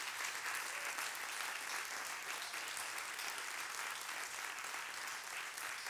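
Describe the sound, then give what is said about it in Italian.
Applause from a largely standing audience of parents and grandparents at a Sunday church gathering: a dense, even wash of clapping that stays steady and unbroken throughout. “Vogliamo farci un applauso, perché vedo che la maggior parte è in piedi, quindi ci facciamo un applauso.”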